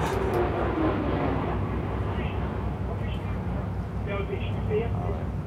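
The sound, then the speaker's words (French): An airplane passes overhead with a broad, steady roar that stays fairly even throughout, while people talk over it. “Donc ça, c'est un avion qui passe.”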